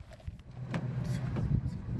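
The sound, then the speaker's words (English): A car driving down a road gives a steady low engine and tyre rumble that runs through the whole stretch, with a few brief higher scrapes riding over it. “Oops, we're going to keep driving down the road, right?”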